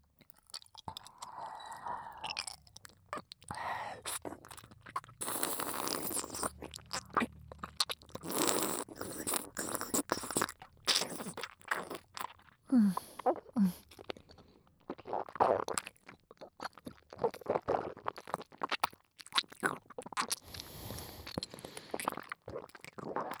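Crunching and chewing of food in a person's mouth, with many irregular, closely spaced bites and squishy mastication running through the whole stretch, moderately loud and with no talk.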